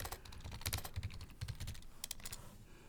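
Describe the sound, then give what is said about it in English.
Typing on a computer keyboard: quiet, rapid, irregular keystroke clicks in short bursts with brief pauses, and no talking. “That's like, let me type that in, give you the actual translation.”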